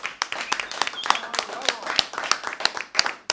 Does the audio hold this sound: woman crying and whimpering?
no